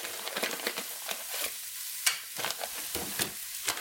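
Whole cumin seeds and a cinnamon stick frying in a pan, giving a continuous bright sizzle dotted with sharp crackling pops, with no voices.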